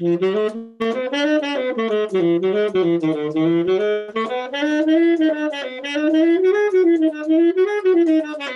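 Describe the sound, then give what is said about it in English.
A wind instrument plays a jazz line with tongued upbeats and notes accidentally cut short. The many quick notes sound clipped and choppy as the pitch wavers up and down. “But if I'm tonguing the upbeats and I'm shortening up by accident, this is what happens.”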